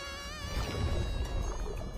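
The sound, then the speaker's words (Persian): A mosquito buzzes in a continuous high, thin whine whose pitch wavers slightly, over a low rumbling background. “این پشه تشنه است، تشنه خون.”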